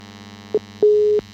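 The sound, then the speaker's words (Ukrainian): A telephone busy signal sounds after a radio listener's call drops: a short beep, then a longer steady tone, then another brief beep, all at the same mid pitch. “Алло, на жаль, обірвався дзвіночок. Дуже шкода, перетелефонуйте, будь ласка.”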